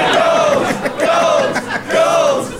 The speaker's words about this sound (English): Listen to that, Norwegian podcast convention! This is the sound of successful British podcasting!